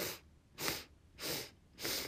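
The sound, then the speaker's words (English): Four short, evenly spaced inhaling sniffs, part of a breathing exercise demonstration, sound soft and breathy with no talk over them. “So it's going to be like 4 inhales and then 4 exhales. I'll do a little demonstration for you and then you can join me. So you'll inhale,”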